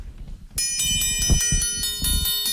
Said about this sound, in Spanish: Esa vara de acero templado es un instrumento bastante nuestro, que antiguamente lo hacían las fraguas de aquí de Piedrabuena y que todavía las mantenemos. A ver cómo suena eso.